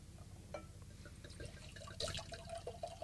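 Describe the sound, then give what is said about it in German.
Red wine, a cuvée blend, is poured into a glass with a faint gurgling trickle that grows a little more distinct toward the end. “Allein schon das Geräusch, wenn man Wein einschenkt.”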